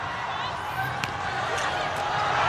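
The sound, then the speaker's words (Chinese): A volleyball serve is struck by a player on the China team, a single sharp hit rising above steady crowd noise from the arena, while a commentator talks over it. “杨树明上来发球。”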